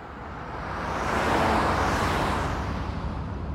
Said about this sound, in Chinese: 许少卿握着方向盘，行驶在晚高峰的车流之中